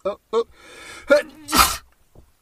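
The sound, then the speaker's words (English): One loud, sharp sneeze bursts out between short snatches of speech, with people talking just before it. “I had to sneeze the spirits out of me.”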